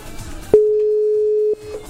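A telephone tone sounds during an attempt to place a call on a radio program: one steady, mid-pitched beep holds for about a second, with faint background noise before and after.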